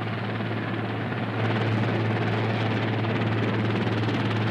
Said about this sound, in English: They're really coming in. What is the helicopter going to do? Coast Guard. They're landing.